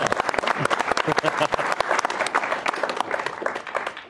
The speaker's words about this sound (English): Yeah, let's give it up for Maddie.